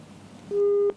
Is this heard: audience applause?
no